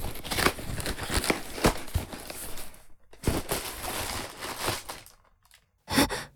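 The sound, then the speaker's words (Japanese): A package being unboxed: irregular bursts of rustling, crinkling and tearing packaging, broken by short pauses and a longer quiet gap near the end before one last burst. “これより開封の儀に入ります。”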